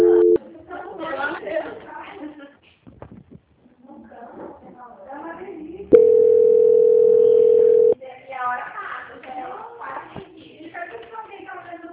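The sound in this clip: A steady single-pitch telephone line tone sounds for about two seconds while a call is being transferred, with a short tone at the very start. People talk over the phone line before and after it.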